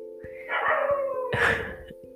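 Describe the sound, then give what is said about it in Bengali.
Dogs bark and yelp at night in a couple of loud, rough bursts over a steady low electrical hum, with brief fainter clicks in between. “এখন রাতের বেলা কুকুর ডাকছে”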